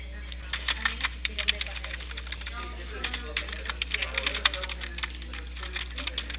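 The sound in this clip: Someone types a message on a computer keyboard in many quick, light keystrokes. The clicks fall in irregular bursts and short pauses throughout.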